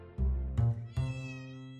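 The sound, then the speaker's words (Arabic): A cat meows in a living room: a few drawn-out, harmonic meows that run together, fairly loud and heard alone without talk. “وكأنه القط موتسارت اللي لازال يعبر عن لا مبالاته ونرجسيته في قلب الصالة في منزل الهادئ”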